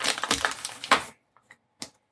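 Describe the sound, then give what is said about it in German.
Tearing open a 100-gram package: a crinkly, rustling rip lasting about a second, then silence broken by a few faint, short clicks and crackles. “Also, reißen wir mal die Packung auf und uns immer so rippchenweise rein.”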